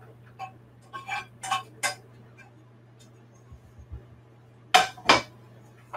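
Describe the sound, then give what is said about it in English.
Kale, garlic and onions dropped into a mixing bowl, heard as a few light clattering knocks and soft taps, ending with two louder knocks, over a steady low hum. “So I'm just going to put my kale and my garlic and onions into a bowl.”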